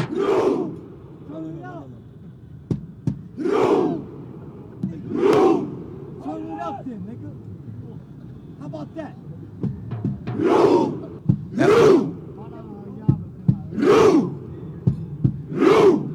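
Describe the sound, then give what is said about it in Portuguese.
Norwegian football fans in Times Square chant a Viking rowing chant: loud unison shouts in a steady rhythm, repeated many times with short lulls between, over a constant crowd murmur. “Os torcedores da Noruega estão em plena Times Square, vários, milhares de torcedores simulando uma remada. É uma característica da torcida norueguesa, eles fazem isso nos estádios”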